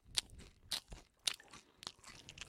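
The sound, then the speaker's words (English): Crunchy chewing right into a microphone, mukbang-style: a series of crisp, sharp bites and crunches spaced irregularly, with softer mouth noises between them. “This is like a mukbang video.”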